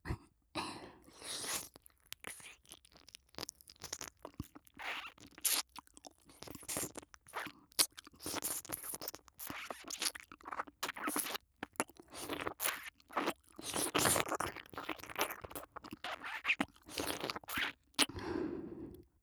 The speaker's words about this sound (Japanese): なかなかこの耳かす頑固で取れませんね。